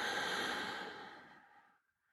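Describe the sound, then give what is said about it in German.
A person breathes out in a long, soft, breathy rush during a morning breathing exercise. The sound is alone, with no talk, and fades away over about two seconds into silence. “möchte jetzt mit dir kurz gemeinsam einatmen und ausatmen”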